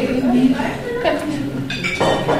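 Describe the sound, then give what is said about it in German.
Dishes and cutlery clink in a bright dining hall at lunchtime, where people sit at large round tables. A few light clinks come through under steady voices talking. “Unterdessen ist Mittag geworden. Die Leute sitzen im hellen Esssaal an grossen runden Tisch, an Vierer- oder Sechser-Tisch oder auch an einem Zweier-Tisch, wie ein Ehepaar kann.”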